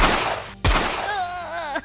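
A gunshot in a video game: a single sharp, loud blast cuts in partway through, following a stretch of noisy game sound and leaving a quieter tail of game audio after it.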